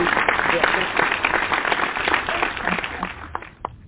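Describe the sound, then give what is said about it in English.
A church audience claps for their pastor: brisk, continuous applause that thins out toward the end, with voices speaking over it. “That's my house clapping, so that's enough for me.”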